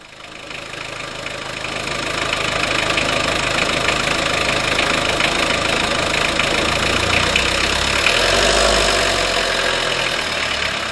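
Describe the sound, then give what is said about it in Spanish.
A car engine runs with a loud, steady, rough rumble and a knocking edge. The sound swells over the first couple of seconds, then holds at an even level with no pauses. “Nos subimos al coche. A ver si logro encender esto.”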